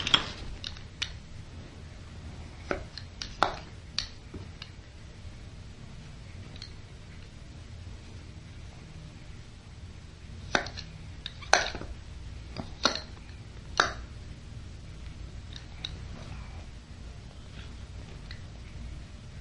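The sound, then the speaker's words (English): Sharp scratchy clicks of a cutter knife slicing on a book, in scattered bursts: a few early, a long pause, then a quick cluster later, each brief and crisp over a low steady hum. “You want the cutter? Remember to do it on the book.”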